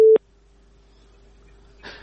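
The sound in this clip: Telephone busy signal on a radio call-in line: a loud, steady mid-pitched tone cuts off abruptly after a fraction of a second, a faint trace of the tone continues, and a short noisy burst comes near the end.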